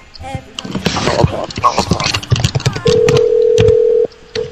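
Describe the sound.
A telephone number being dialed, its keypad tones mixed with chatter and background noise, then a single steady tone holding for about a second before cutting off.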